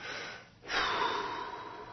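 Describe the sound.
A single breath is drawn in after a brief quiet moment, a soft, airy rush that rises suddenly and holds steadily for over a second, faint and alone without speech.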